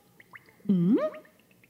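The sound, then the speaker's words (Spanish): Water dripping from a leak in a damp tunnel, one hollow plop that rises in pitch, set among a few faint, smaller taps. “Hay goteras.”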